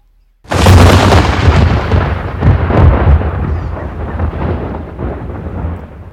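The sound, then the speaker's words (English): A loud explosion of magical fire in a fantasy battle scene, used as a sound effect: a sudden blast that swells into a long, heavy rumbling roar and fades slowly over several seconds. “the relic priest was engulfed in an explosion of malicious fire that left only a miasma of dark fumes.”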